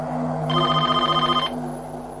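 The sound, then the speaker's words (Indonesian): A telephone rings in a single rapid, trilling electronic burst lasting about a second, loud and clear over a steady low hum, then stops. “Maka dari itu suara telepon itu terdengar sangat jelas.”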